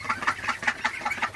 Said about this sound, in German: Wir haben auch Laufenten. Die können natürlich auch stören morgens, wenn sie hinter deinem Baumwagen stehen und wie wild Krach machen.